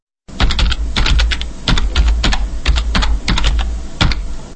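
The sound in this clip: Computer keyboard typing as a web address is entered: many quick, loud key clicks in uneven bursts with short pauses between, and no talk.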